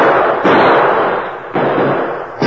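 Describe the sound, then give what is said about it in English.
Gunshots fired at a house from behind boulders near a trail: three abrupt, loud cracks, each jumping out of a dense, continuous roar of noise that stays strong between the shots. “Who'd be shooting at us?”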